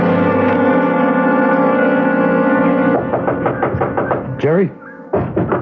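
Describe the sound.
Knocking on a cabin door: a rapid run of hard knocks follows a sustained low tonal sound, then a brief voice and a final burst.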